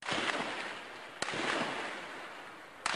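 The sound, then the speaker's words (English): Gunfire from security forces backed by tanks shooting their way into the main square of Hama, Syria. Two sharp, isolated cracks stand out over a dense, rushing background noise. “The sound of Syrian security forces backed by tanks shooting their way into the main square in the city of Hama.”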